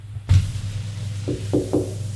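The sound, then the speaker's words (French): Knocking on a door: a heavy thump, then a pause and three quick, sharp raps over a faint low hum. “On a frappé à la porte. Entrez.”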